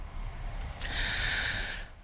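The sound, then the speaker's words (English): A deep breath from a high school public speaker: a single faint, airy inhale that hisses steadily for about a second, alone without talk. “Just got to take a deep breath there.”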